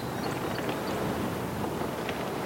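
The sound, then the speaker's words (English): Wind turbine noise under the Falmouth tower called Wind One: a steady, rough, scraping whoosh like a shovel dragged across pavement, continuous and unbroken throughout, with no voices. “This was obviously not a scientific test, as the turbines are different models and the wind conditions varied from spot to spot. But even to the untrained ear, that noise, which sounded like a shovel scraping pavement to us,”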